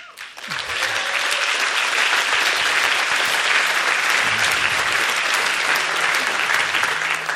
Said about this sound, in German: vielen Dank, der Applaus, der gehört euch selber, denn ihr selber habt das alles mit aufgebaut.